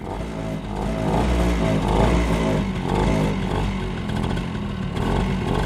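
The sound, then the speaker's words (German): A motorcycle engine runs loud and steady, its low rumble swelling slightly a few times as though lightly revved, with no voices heard. “Jetzt das Motorrad.”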